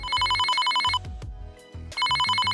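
Telephone ringing with an incoming call, two bursts of a bright, rapidly warbling electronic ring separated by a short pause, loud and alone.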